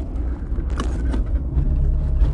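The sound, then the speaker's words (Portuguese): A car drives at about 40 km/h as the driver shifts from fourth into fifth gear. A steady, low engine and road rumble continues without a break, with no voices. “Eu tô andando a 40 por hora em quarta marcha. Vou colocar quinta marcha agora.”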